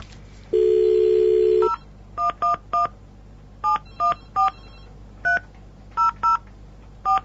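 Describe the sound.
Dial tone that holds for about a second, then ten touch-tone beeps dialing a telephone number, tapped in short irregular groups with brief pauses between them.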